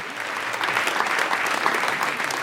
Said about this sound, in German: Ich wollte gerade noch sagen, einen herzlichen Applaus für Andreas Platthaus